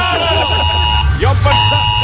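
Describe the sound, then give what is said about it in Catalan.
An emergency warning alarm for fire, flood or tsunami sounds as a steady, piercing electronic tone held throughout, with faint voices underneath. “Abans de morir arrossegats per un incendi o un aiguat o un tsunami, morirem d'un atac de cor per culpa d'aquesta alarma del dimoni, eh?”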